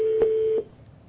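A conference call tone plays as one steady, mid-pitched electronic beep. It holds for about half a second, then cuts off into quiet.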